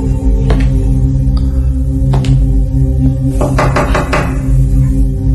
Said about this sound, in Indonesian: pun coba mengetuk pintu toilet yang tak jauh dariku itu.